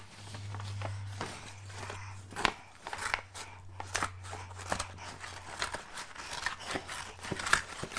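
Scissors snip through craft material as a parent and child cut pieces for a homemade bracelet. Many crisp, irregular snips run over a steady low hum.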